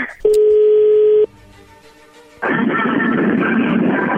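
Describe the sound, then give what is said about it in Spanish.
Telephone tones from an outgoing prank call to a man. A single steady mid-pitched tone holds for about a second, a quieter stretch follows, then loud hissing line noise fills the rest. “vamos a llamarle a Lucio”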